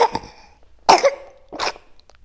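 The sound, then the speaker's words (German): Coughing from a baby: a few short, rough coughs come in separate bursts with quiet gaps between them, and no talking is heard. “Baby hat gehustet.”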